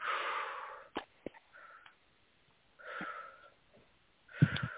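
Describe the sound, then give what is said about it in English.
A person takes deep, big breaths: a few long, airy, soft breaths separated by quiet pauses, with faint sniffing sounds between them. “Take 3 deep breaths, please. Real big.”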